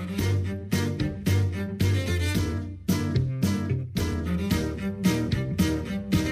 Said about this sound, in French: Ce que vous entendez, c'est le générique de l'émission de Stephen Colbert, le late show le plus regardé des États-Unis sur CBS.